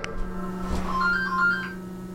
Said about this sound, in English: Oh, sorry, that's my phone.